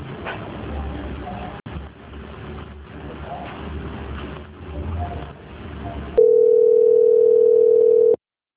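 Telephone line tone during a bank call transfer: one long, steady mid-pitched beep lasting about two seconds follows a stretch of dull rumbling background noise.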